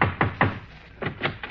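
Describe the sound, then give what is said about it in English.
Knocking on the door of a senator's house: two groups of three firm, evenly spaced raps, separated by a short pause, with no voices. “Now, let's knock.”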